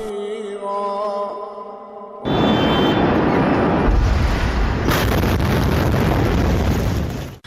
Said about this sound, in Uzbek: Livanda poytaxt Bayrutni larzaga solgan dahshatli portlash guvohlarning mobil telefonlariga muhrlandi.